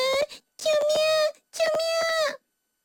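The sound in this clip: A human voice imitates a young rabbit crying: three loud, drawn-out wailing sobs at a steady high pitch, separated by short breaks.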